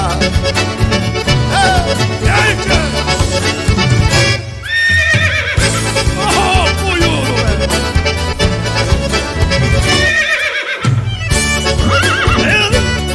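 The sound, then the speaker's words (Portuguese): A dark dapple-grey horse trots with rhythmic hoofbeats, and two whinnies stand out above loud accompanying music. “Dali a pouco ouviram o tropel, olharam o campo, noite enluarada. Eu vinha vindo no tordilho negro, feliz saboreando a marcha troteada.”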